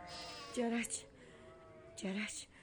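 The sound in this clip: Lambs bleat in two short, wavering cries about one and a half seconds apart, over a low, steady background.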